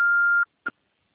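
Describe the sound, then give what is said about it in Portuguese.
A voicemail beep after the answering message: one steady, mid-high electronic tone lasting about half a second, then silence, a brief short blip, and quiet. “Alô, você não pode ser atendido no momento. Por favor, deixe a mensagem após o sinal.”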